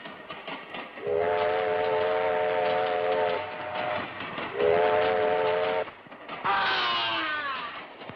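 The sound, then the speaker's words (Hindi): Train horn sounding at a railway station in a film scene, with two long, steady blasts followed by a third that slides lower in pitch, all loud over a low rumbling background. “आज भी प्यासा का सबसे असली scene वही station वाला माना जाता है।”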